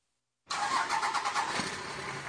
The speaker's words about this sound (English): Where will your diesel truck take you this year?